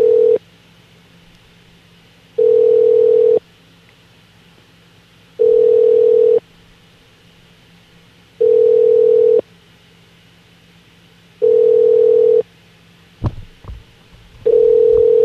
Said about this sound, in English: I hear a ringing.